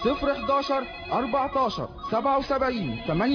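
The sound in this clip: A telephone ringing with a warbling electronic tone that repeatedly rises and falls in pitch, fairly loud and continuous, with a voice mixed in.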